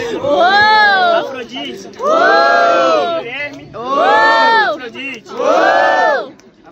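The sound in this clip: Crowd at a rap battle cheering and whooping in four loud, roaring bursts separated by brief lulls, with many voices rising and falling together.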